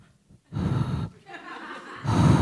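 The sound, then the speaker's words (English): A voice imitates loud, audible breathing in a few rough, breathy bursts that come in quick succession, noisy and forceful in tone. “I all of a sudden became very aware of my breath. I was like...”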